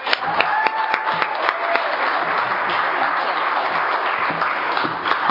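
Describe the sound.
Applause from an audience welcoming the evening's speaker, with several sharp individual claps standing out at the start before settling into an even, moderate patter.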